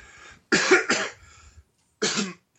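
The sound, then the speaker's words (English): Coughing from one person: a quick burst of a few harsh coughs, then one more after a short pause, with silence around them. “excuse me, I coughed.”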